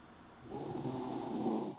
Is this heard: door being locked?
no